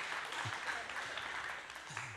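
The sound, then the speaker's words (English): An audience claps during a faith-centred talk: soft, steady applause with brief voice sounds mixed in. “we're clapping for God. You're not clapping for me.”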